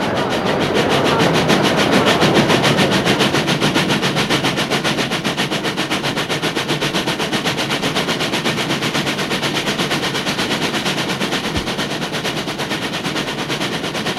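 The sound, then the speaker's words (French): A train pulls out of a station into the suburbs of Lyon, with a loud, steady, rapid rhythmic clatter that continues throughout and no voices. “Le train commence à partir. Il sort de la gare.”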